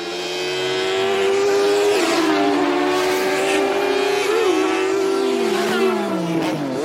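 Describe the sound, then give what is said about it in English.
A Formula One race car engine screams at high revs as one loud, continuous whine that dips and climbs again several times, heard alone without talk. “Yes, let us get into F1, because we have the sound now.”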